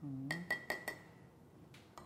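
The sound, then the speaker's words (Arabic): A spoon clinks against a cup while stirring unsweetened Nescafé: four quick, bright taps in a row, then two fainter ones after a pause, with a brief voice at the start. “هي ما فيها سكر ليش عم تحركها؟ ايه حرك لك النسكافيه”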